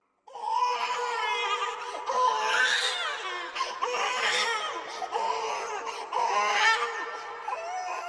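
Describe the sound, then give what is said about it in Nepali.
A baby wails almost without pause for about eight seconds: an underweight infant who cries constantly despite regular feeding. The cry is loud and tonal, with a few brief breaks between long, strained sobs and no talk over it. “यो बच्चा कति रोगको रोई गरेको होला। बेला बेलामा खाना खुवाइ राखेकै छु, त्यही पनि मोटाउने होइन, खालि रुने मात्र।”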